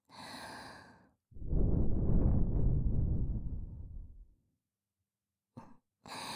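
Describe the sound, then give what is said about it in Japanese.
A long, soft breath is blown into the ear, a breathy rush lasting about three seconds. Brief bits of speech come before and after it. “何、耳に息吹きかけられただけでビクビクしてるんですか？”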